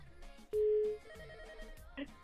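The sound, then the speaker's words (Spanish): A telephone ring heard after dialing a call: one steady, loud tone lasting about half a second, followed by quieter background sound. “Voy a marcar. A ver, vamos con la otra llamada.”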